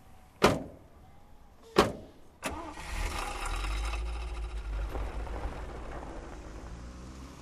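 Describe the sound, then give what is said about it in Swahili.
Car doors slam twice as people climb in, then a third knock comes as the engine starts. The engine settles into a steady low running hum that carries on to the end. “Hebu ingieni ndani ya gari mimi nitawapa lifti hadi kituoni.”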